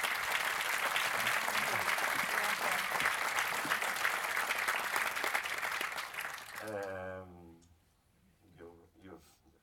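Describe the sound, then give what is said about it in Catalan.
Audience applause at the introduction of a film screening, dense steady clapping for about six and a half seconds that then fades as a voice begins talking. “jo el que us demanaria és un aplaudiment per Chris Wells, la filla gran del Tom Wells.”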